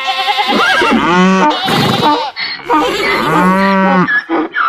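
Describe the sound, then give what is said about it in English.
Farm animals call together in a loud, overlapping chorus, led by long, drawn-out cattle moos, with two prominent sustained calls and other voices layered around them. “And when the farm choir comes together, this is what it can sound like.”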